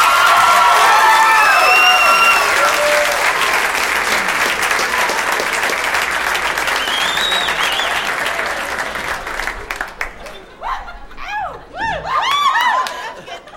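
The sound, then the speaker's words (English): Audience cheering and applause greet a performer at a comedy and music show: dense, steady clapping with shouts and whistles that thins out after several seconds into scattered whoops and claps. “make some noise for Bo Burnham”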